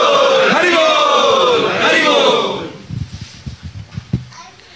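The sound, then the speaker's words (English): A crowd of devotees loudly chanting Hari Bol in welcome of a visiting guest, a dense, sustained roar of many voices for about two and a half seconds that drops away to softer scattered sounds. “We welcome him by three times, loudly chanting, Hari Bol!”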